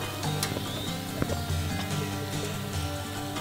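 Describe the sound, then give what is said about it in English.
Dough balls fry in clarified butter in a frying pan, producing a dense, continuous hiss and crackle that stays even throughout. “In a frying pan, pour in clarified butter. Heat for about a minute. Roll the dough into balls using a moist hand and fry till golden brown.”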